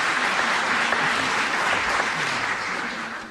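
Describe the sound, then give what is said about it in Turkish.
Audience applause for folk musicians on kaval and mey after a Turkish folk song: a dense, even wash of clapping that holds steady for about three seconds and thins slightly at the end. “Onları da gönülden alkışlıyoruz.”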